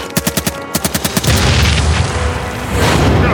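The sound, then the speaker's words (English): Incendiary bombs dropped from the rear of a column explode as a rapid burst of sharp, evenly spaced booms, about ten in quick succession. They give way to a loud, continuous rumbling roar that swells again near the end. “It's von Moltke's, dropping incendiary bombs to warn us we can't escape on foot.”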